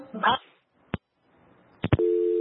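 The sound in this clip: A phone call dropping on a live radio line: a few brief bursts and clicks separated by silence, then a steady electronic line tone that runs unbroken to the end.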